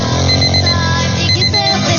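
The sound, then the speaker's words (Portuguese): An alarm clock ringing at 6:20 in the morning, a loud, continuous electronic ring with steady high tones that holds without a break for the whole two seconds. “Vamos, 6h20, ó o relógio despertando, ó.”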